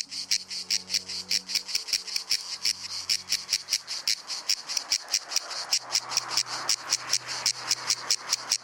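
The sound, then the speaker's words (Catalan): Cicadas (Cicada orni) sing in intense summer heat in the woods and fields of Menorca, a steady train of many rapid, buzzing rasping pulses in an even rhythm, moderately faint, over a low background hum. “La xigala és un insecte estival per excel·lència. De nom científic Cicada orni, ets l'únic representant del seu gènere i família a les Illes Balears.”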